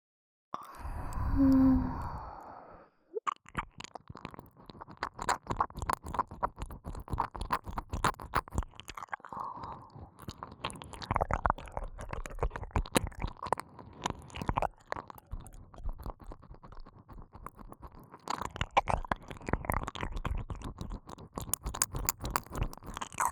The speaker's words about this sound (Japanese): こんな臭いものを耳の中に入れていては病気になってしまいますから、私の唾液でしっかりと耳かす洗いさせていただきますね。